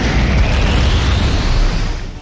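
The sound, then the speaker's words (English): Stone Storm attack effect in a turn-based monster battle video game: a dense, rumbling explosive roar that holds steady throughout and eases slightly at the very end. “Foe Trio Guardian used Stone Storm.”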